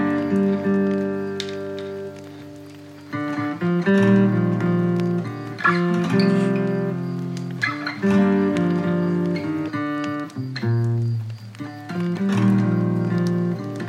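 A song plays loudly on its own: sustained harmonic chords with rhythmic pulses and recurring accented hits, with the texture swelling and thinning in several sections.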